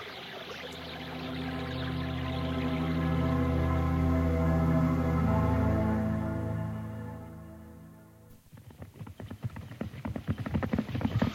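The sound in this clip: Horse hooves galloping as riders press on after days of searching on horseback; a rapid run of hoof beats rises in the final few seconds after a long, sustained tonal drone.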